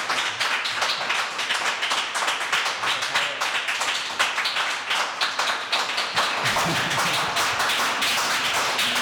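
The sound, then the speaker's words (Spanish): Audience applause for young musicians, with many distinct hand claps forming a lively, continuous patter that stays loud and even throughout. “Os pedimos, distinguida audiencia, un fuerte aplauso para ellos, para los jóvenes.”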